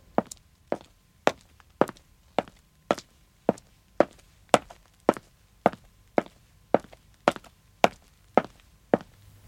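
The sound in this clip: Footsteps of two people walking slowly down a street: many crisp, even treads at a slow, unbroken rhythm, each step a sharp, distinct hit over near silence.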